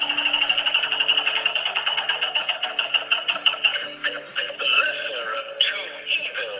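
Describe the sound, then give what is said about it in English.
A roulette wheel spinning: rapid, evenly paced ticking clicks that later grow uneven and irregular. “the wheels are turning here, the onion roulette wheel turning”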